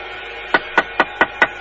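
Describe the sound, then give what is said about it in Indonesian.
Knocking on a house door: six sharp, evenly spaced raps in a quick, steady rhythm, alone against a quiet background. “siapa yang mengetuk-ketuk pintu itu?”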